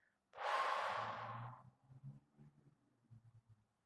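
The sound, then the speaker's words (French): A deep breath blown out hard through the mouth: one long, forceful, airy whoosh, quiet overall, then faint low soft sounds. “prenez une profonde inspiration par le nez et soufflez fortement par la bouche”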